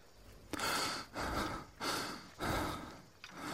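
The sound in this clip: Heavy breathing of a hiker recovering from a crisis during a mountain climb toward a peak: four loud, rasping breaths in a steady rhythm, followed by a faint short puff.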